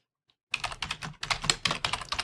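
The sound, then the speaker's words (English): Rapid keystrokes on a computer keyboard as a short greeting is typed into a chat, starting after a brief silence and running as a quick, uneven stream of many clicks with one short pause. “let me type in a little greeting. Whoops, that's not the greeting I wanted to type in. Let's try that again. I'm going to type a little greeting in the chat.”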